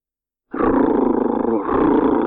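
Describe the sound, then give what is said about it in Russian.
A tiger's deep, rumbling growl-roar starts abruptly and holds loud and steady for nearly two seconds, with a brief dip partway through. The tone is rough and throaty, and there is no talking over it. “Она изобразила рычащего, готового к прыжку тигра”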